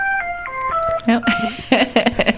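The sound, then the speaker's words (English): A telephone in the room sounds a quick run of a few dialing-tone beeps, and then a voice talks over faint remaining tones. “whoops, pardon me, I didn't realize there was a phone in the room.”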